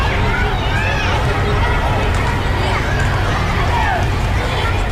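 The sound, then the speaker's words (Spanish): Children playing in a school playground at recess at an Augustinian school in Madrid's Chamberí district: a dense, loud hubbub of many high-pitched young voices shouting and calling over one another, steady throughout with no pauses. “Nos pilláis en la hora del patio. Mirad este sonido, este es el ambiente que hay en este colegio estas horas.”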